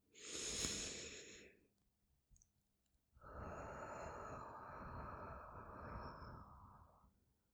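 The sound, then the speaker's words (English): A deep breath: a short airy inhale, then after a brief pause a long, steady, breathy exhale, soft and alone without talk. “Let's all have a deep breath.”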